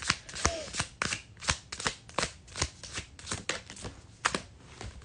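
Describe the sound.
Tarot cards are shuffled and drawn in many quick, crisp rustling bursts that repeat in a fairly even rhythm, soft and with no talk.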